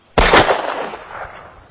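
A gunshot is fired at a cottonwood log by a riverbank: one loud, sharp crack with a rumbling tail that fades over more than a second.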